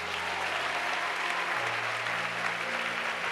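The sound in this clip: A church audience applauds during a sermon with a dense, steady wash of clapping at an even level throughout, over faint sustained low tones.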